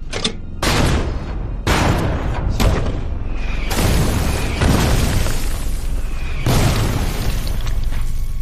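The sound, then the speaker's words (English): A heavy American artillery barrage pounds German defenders: many loud booms and bursts run together into a continuous roar, with sharper blasts standing out. “At 10:30, the American artillery unleashes a heavy barrage on the German defenders.”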